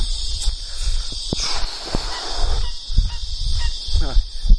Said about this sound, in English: ducks and everything, not ducks, they're water hen.